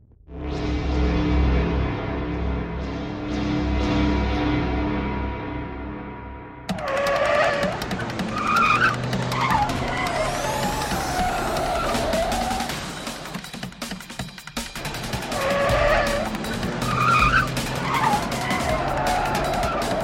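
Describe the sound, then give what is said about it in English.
A car engine revs loudly in a chase, its steady roar giving way to repeated tyre squeals and skids over a churning motor and rough road noise. “The engine came alive without hesitation”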